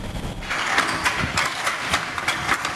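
A wooden hand loom beats threads into place while weaving patterned cloth in Songkhla, a rhythmic series of clacking knocks over a steady, noisy background.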